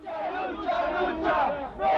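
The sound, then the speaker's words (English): Crowd chanting political slogans in a street procession through Atoyac de Álvarez in Guerrero, Mexico, escorting an urn of remains. Many voices chant together in a steady, loud, continuous stream that swells slightly near the end. “Led by a young woman, a crowd moves through the streets of Atoyac de Álvarez in the southern Mexican state of Guerrero. Chanting political slogans, the procession escorts an urn containing the bones of Lucio Cabañas.”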